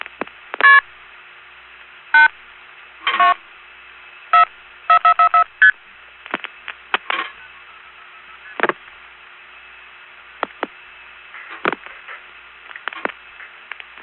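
Touch-tone telephone dialing: a string of short, bright dual-tone beeps at uneven intervals, some in quick succession, over a steady low hum, followed by scattered sharp clicks and crackles.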